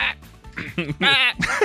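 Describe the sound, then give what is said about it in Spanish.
A voice imitates a goat and a sheep bleating in a few short, nasal, wavering bleats, the later ones longer and more tremulous, with no other talk. “¿Cómo hace la chiva y la oveja?”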